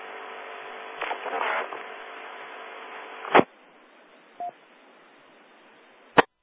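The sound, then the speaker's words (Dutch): Telephone being dialled over a narrow, hissy line, with no answer: a burst of noise, a sharp click, one short beep, then another sharp click, with no voices. “Ik heb geprobeerd om de rondeleider te bellen, maar geen gehoor.”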